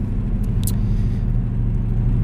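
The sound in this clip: Steady road and engine rumble of a car accelerating to highway speed on a mountain highway, with its tire pressure slightly low; a loud, continuous low drone with no talk.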